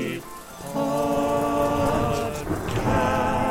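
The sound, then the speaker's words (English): A short homemade jingle with a churchy feel: sustained chord tones over continuous rain and storm noise, fairly loud and unbroken throughout. “I've also made a jingle for the next item.”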